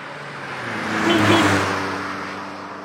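A car drives past, its engine whir swelling smoothly to a peak midway and then fading away again, steady and alone with no talk.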